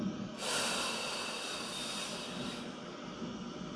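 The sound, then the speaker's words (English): A slow, deep breath drawn in during a guided relaxation exercise, heard as a soft, airy hiss that swells early and then holds steadily for several seconds. “Now let's take a nice, big, deep breath in.”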